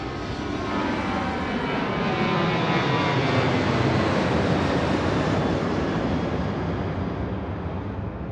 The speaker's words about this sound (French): On voit que l'avion, le pilote est en train de corriger en fait. Il corrige pour amener l'avion le plus stable possible.